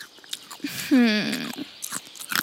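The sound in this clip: Crunchy chewing of snacks: several short, dry crackling bites spread across the moment, with a brief voiced sound sliding downward in pitch in the middle.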